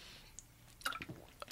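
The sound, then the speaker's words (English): A person taking a drink of water: a few faint, quick wet sips and a swallow, close together near the end, after a quiet start. “I'm just going to take a little drink of water here because I need it.”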